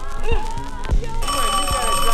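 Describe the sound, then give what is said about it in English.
A telephone rings with a steady, bright electronic tone that starts about halfway through and holds to the end, after a short stretch of voice and a few low thumps. “Hey, man, get the phone. Answer the phone!”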